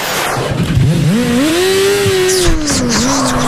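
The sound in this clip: A car engine revs as the car drives off. Its tone climbs steadily, then holds and dips slightly, with no voices.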